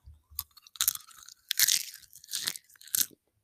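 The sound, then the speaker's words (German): Food being chewed and crunched, several loud, crisp crunchy bursts separated by short pauses, with no talk. “Ich werde jetzt noch was essen.”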